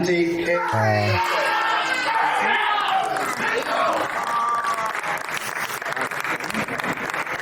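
Shouting and cheering from a person in the background, heard as loud, continuous crowd-like yelling and whooping that fills the whole stretch without a break.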